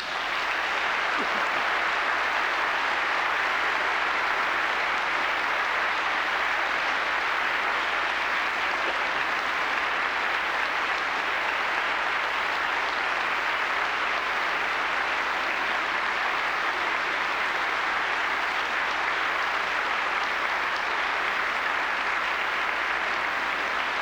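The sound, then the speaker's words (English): A standing ovation fills Westminster Church, dense, continuous clapping from a large crowd that holds at an even, loud level for the whole stretch without a break. “For those in our radio audience, you've missed a standing ovation here in Westminster Church.”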